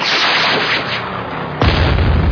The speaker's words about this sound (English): A rescue plane! Get the flare gun!